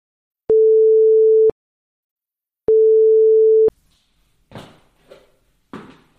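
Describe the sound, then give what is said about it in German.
Two short signal tones, the first on the left channel and the second on the right, check the headphone orientation. Each is a steady mid-pitched beep about a second long, with a silent gap between them, and a few faint rustles come after. “werden vor dem Hörspiel zwei kurze Signaltöne erklingen. Der erste Ton links, der zweite rechts.”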